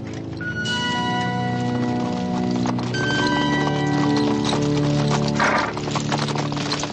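Clip-clop of hooves from horses walking with riders: a steady, rhythmic beat that stays loud and even throughout, with sustained tonal sound running alongside.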